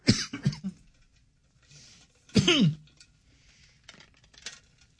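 Rough throat clearing and coughing from a dry throat: a few harsh, raspy bursts, the loudest near the middle, then fainter scraping sounds trailing off.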